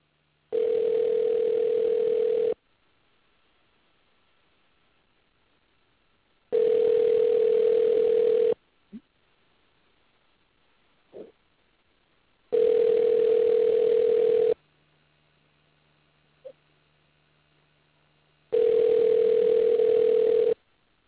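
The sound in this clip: A telephone rings on the line while a caller phones someone back: four long, steady, even-pitched ring tones, each about two seconds, separated by quiet pauses.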